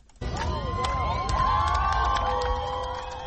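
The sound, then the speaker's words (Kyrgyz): Crowd cheering, shouting and whistling in the central square of Yerevan as a protest rally greets news of the prime minister's resignation. A dense, loud roar rises abruptly and holds steady, with shrill sliding whistles over it. “Еревандын борбордук аянтына чогулгандар бул кабарды кубануу менен кыйкырык сүрөө менен кабыл алышты.”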